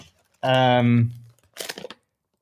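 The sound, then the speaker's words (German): A bag being opened gives a short, crinkly burst of rustling, following a brief sustained voice. “Jetzt muss ich die Tasche, ihr hört es, jetzt muss ich die mal aufmachen.”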